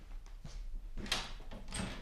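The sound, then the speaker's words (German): A door is unlocked with a latch key and opened. A few quiet clicks and metallic rattles are followed by louder scraping bursts from the latch and door. “Sie brauchen die Türe nicht aufzubrechen. Hier ist der Drücker.”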